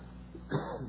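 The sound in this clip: A single short cough from someone whose water went down the wrong pipe: one brief, muffled burst after a moment of quiet, over a steady low hum.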